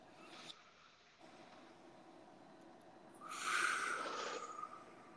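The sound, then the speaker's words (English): A deep breath drawn in through the lungs as a calming breath: one airy, hissing inhalation lasting over a second, moderately quiet and heard alone without talk. “On the count of three, we'll both take a breath. And just take a deep one and breathe in through your lungs and try to relax your shoulders.”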